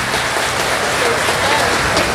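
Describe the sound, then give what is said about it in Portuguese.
An audience at a church youth gathering applauds with dense, even clapping that holds steady and loud throughout. “Uma salva de palmas bem bonita, mais forte, é.”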